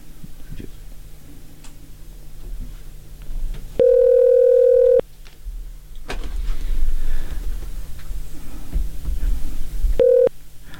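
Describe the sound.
A telephone rings with an incoming call: a steady, buzzing electronic tone sounds twice over low background hiss, the first burst lasting about a second and the second much shorter.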